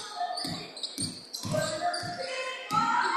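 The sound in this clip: A basketball is dribbled on a court during a women's game: about five steady, dull thumps bounce at a regular pace beneath an ongoing wash of crowd and voice noise.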